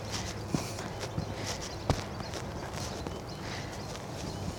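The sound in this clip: Footsteps of people walking along an outdoor path: a few sparse, irregular footfalls, soft and faint over a steady background hiss.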